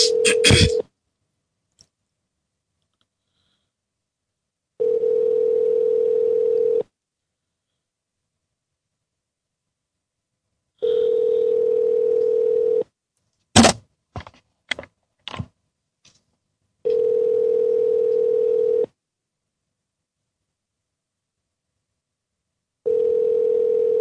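Ringback tone of an outgoing telephone call: a steady buzzing tone repeats in even on-off cycles, several rings with long silent gaps, plus a few short sharp clicks or beeps between two of the rings.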